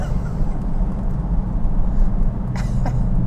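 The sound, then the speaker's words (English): A car accelerates along a road under a gray overcast sky, with a steady low engine and road rumble that stays loud and even throughout. “Excuse me while I accelerate.”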